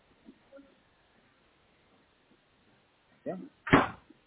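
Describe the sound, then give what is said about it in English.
A door being closed: near-silence with a few faint ticks gives way to two short thuds at the end, the second louder and sharper, like a door swinging to and latching. “close the door, please.”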